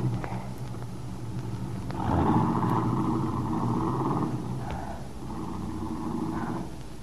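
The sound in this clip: A car being driven off, heard as a low, steady engine rumble and hum that swells after the first couple of seconds and eases slightly toward the end, with no voices.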